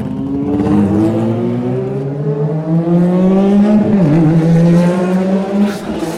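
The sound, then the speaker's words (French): A Formula 1 racing car arrives while on fire, its loud, steady engine drone climbing gradually in pitch over several seconds, with a brief wobble partway through and no voices. “Arrivée d'une voiture en feu.”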